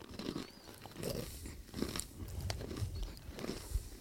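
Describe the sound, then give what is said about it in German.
Honey-coated salted nuts being crunched and chewed, a string of soft irregular crunches and chewing sounds at low level, with no talk. “Wer kommt auf die Idee, Nüsse mit Honig zu überziehen und dann Salz drüber zu schütten?”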